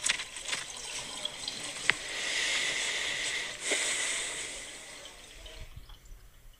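Hands washed under running water: a soft, steady hiss of flowing water with a few brief splashes and drips, swelling slightly in the middle and thinning out near the end.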